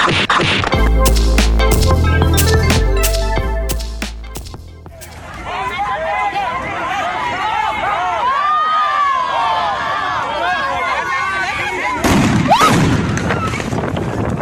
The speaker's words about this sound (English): those were the sounds of the police firing on student protesters from Wits University in South Africa